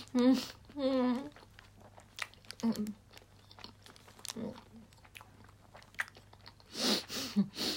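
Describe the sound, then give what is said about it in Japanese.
Chewing and biting of food while eating, with many short, crisp clicks and smacking sounds scattered throughout. Bursts of talking come at the start, in the middle and at the end. “食べながら喋るのお行儀悪いよね。”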